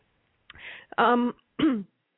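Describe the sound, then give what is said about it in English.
Throat clearing from someone who has swallowed wrong and has a frog in the throat: three rough, gravelly bursts, the second and third louder and partly voiced, with short silences between them. “I've swallowed wrong, so I have a frog in my throat”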